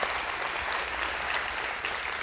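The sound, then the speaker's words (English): A church audience claps together in a dense, steady burst of applause that stays even throughout and sounds fairly soft, with no talking over it. “So that's something you should clap for.”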